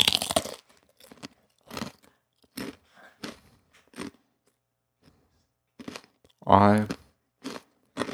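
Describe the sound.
Pita chips are crunched and chewed in a series of crisp, dry bites spaced through quiet gaps. The bites are fairly soft, and a brief voiced hum rises near the end.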